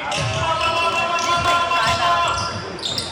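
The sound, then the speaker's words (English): A basketball is dribbled during a game, with regular low bounces under steady crowd noise and indistinct voices. “Number 20's gonna double dribble and it'll be Eagles ball.”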